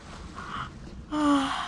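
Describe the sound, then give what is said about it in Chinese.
A voice acts out a lazy yawn, a breathy drawn-in breath followed by a short, low voiced groan, fairly faint throughout. “懒洋洋地打了哈欠”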